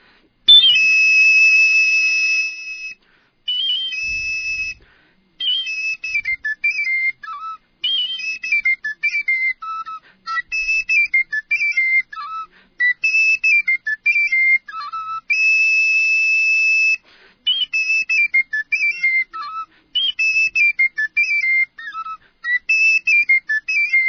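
A traditional ruku tune from Valles de los Chillos is played alone as a high, whistling wind melody, with phrases of quick stepping notes alternating with long held tones, separated by short pauses and repeated.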